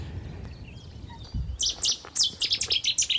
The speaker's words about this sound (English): don't often see Cetti's warblers because they um, they tend to skulk in bushes. But they were yeah, obviously having a little battle over territory. It's an almighty call for the size of the bird.